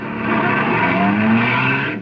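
Engine of a taxi cab driving, a steady, fairly loud motor drone with no voices, its pitch rising slightly midway before easing off at the end.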